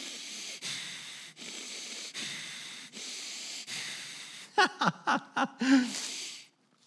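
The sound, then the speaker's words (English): A man imitates angry snorting by forcing breath out through his nostrils in a rapid run of short, sharp huffs ending in one longer, heavier blast. “the word for anger is a Hebrew word, aph, A-P-H, and it means literally to emit breath from the nostrils. So you ever met someone who's like this?”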